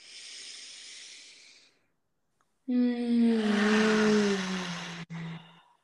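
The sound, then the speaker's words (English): A deep breath drawn in through the nose, then a long exhale. The inhale is a soft, breathy hiss. After a short silence comes a louder, sustained exhale with a low voiced sighing tone that sinks slightly and cuts out briefly near the end. “we'll take three deep breaths together, inhaling through your nose. Exhale.”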